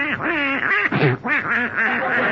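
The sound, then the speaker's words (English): Duck quacking: a voice imitates a silly-looking duck being shooed out of a bed, giving a rapid, loud series of nasal, wavering quacks with no pauses between bursts. “Get out of my bed, you silly-looking duck. Out, out.”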